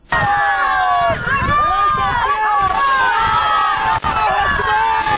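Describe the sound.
A crowd in Ghor province welcomes the provincial governor with a loud, dense, continuous mass of shouting and cheering voices that barely lets up.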